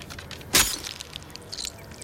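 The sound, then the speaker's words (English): A small glass vial of blood is smashed on a black sheet in a dark warehouse. A single sharp, bright crack of breaking glass rings out, followed by quiet background noise. “He rolls a vial containing his blood onto the black sheet and smashes it, so the blood drips through the eyelet with the cable running through it.”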